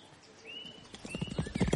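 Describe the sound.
A ridden horse's hooves clip-clop in a quickening run of many beats that grows louder through the second half, with a few thin high tonal squeals drifting above.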